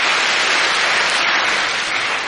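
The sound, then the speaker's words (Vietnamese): A large round of applause from a gathered audience, a dense and steady clatter of many hands that stays loud and even throughout with no voices. “cho một tràng pháo tay thật lớn”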